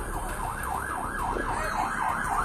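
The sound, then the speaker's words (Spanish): Wailing siren of a fire engine arriving at a crash scene, a loud rising-and-falling electronic tone repeating about twice per second over low traffic rumble. “todos se distrajeron cuando escucharon que al fin llegaron los bomberos”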